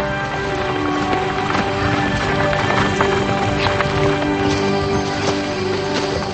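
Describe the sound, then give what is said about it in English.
Horse hooves clop as a rider passes militiamen: a dense, continuous patter of hoofbeats over a busy, rushing background, with no clear voices. “He rides past the militiamen and catches up with Benjamin”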